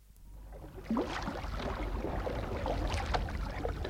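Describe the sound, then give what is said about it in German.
A light canoe is pushed out into a river: a soft knock near the start gives way to a faint, continuous rush of moving water and hull noise. “Mit aller Kraft stieß sie das leichte Boot hinaus in den Strom.”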